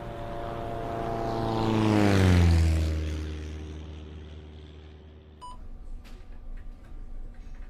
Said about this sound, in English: We have an unidentified aircraft approaching from the south.